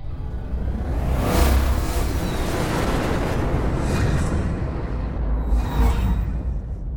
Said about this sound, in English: I hear the jets firing on a shuttle, bringing us to Colony by Patricia Keeler